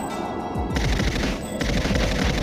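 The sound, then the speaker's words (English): Rapid video game gunfire as a player shoots an enemy from a distance, a dense, steady run of many crackling shots at even loudness with no talk. “I shot that guy from the distance.”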